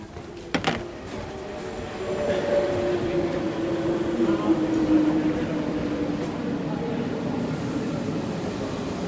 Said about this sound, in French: On continue d'emprunter cette ligne B du RER en direction du nord. On va traverser Paris sans s'y arrêter.